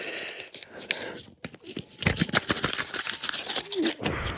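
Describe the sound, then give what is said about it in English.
Paper tearing as a gold envelope is opened: a few crisp rips and crinkles, with louder, denser tearing in the second half. “I'm going to open the gold envelope now”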